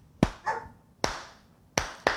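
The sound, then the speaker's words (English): Sharp hand claps in the Grimsby Town fish chant pattern, made by one person: a few crisp, loud claps separated by long, uneven gaps, with quiet between them. “Actually, that's not even the right one. That's not even the right clap. I've just done the Grimsby Town fish chant.”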